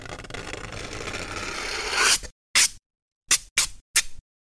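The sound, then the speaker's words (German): Edge of a piece of aluminium foil drawn slowly over cardboard: a long rasping scrape of about two seconds that swells toward its end, then four short scratchy strokes separated by silence. “Ihr reißt also ein Stück Alupapier ab und zieht die Kante langsam über die Pappe. Das hört sich dann so an.”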